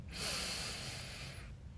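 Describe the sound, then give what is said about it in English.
One slow, deep breath in during a guided breathing exercise, a soft, airy rush that lasts about a second and a half, faint and heard alone. “So ready? We're going to breathe in 2, 1, 2.”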